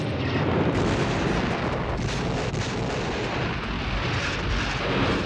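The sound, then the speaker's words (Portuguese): Heavy fire from a deflection tower during a Star Wars space battle, a loud, unbroken barrage of rumbling blasts that roll together into one dense, roaring wall of sound. “Atenção! Tem muito fogo vindo do lado direito daquela torre de deflexão.”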